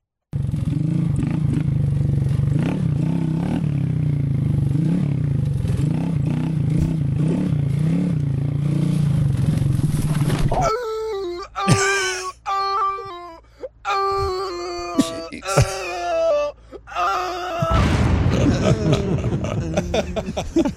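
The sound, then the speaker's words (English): An auto-tuned remix of a man falling off his dirt bike while riding trails: a loud, steady engine drone for about ten seconds, then choppy, pitch-corrected melodic vocal phrases with clattering hits, and the engine roar returning near the end. “This man's embarrassing moment of him falling off his dirt bike while riding the trails, look fun, has been auto-tuned.”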